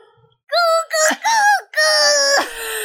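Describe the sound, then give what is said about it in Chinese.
A voice imitates a rooster crowing before dawn: a few short, strained, wailing calls followed by one long, drawn-out, loud cry. “所以天还没亮，他就忍不住大叫，叫大家气炸了。”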